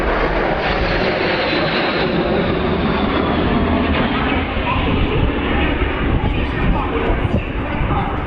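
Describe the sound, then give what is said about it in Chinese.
Loud, continuous roar of two H-6 bombers flying overhead in a bomber formation, a dense, steady rumbling wash of engine noise that holds evenly through the whole stretch. “两架轰六轰炸机在我们头顶上呼啸而过。”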